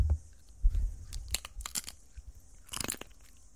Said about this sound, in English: Guy Montgomery doing a little amateur ASMR. That wasn't bad. I didn't mind that. It's the wetness that I have issue with. It's the slobber. It's the spit.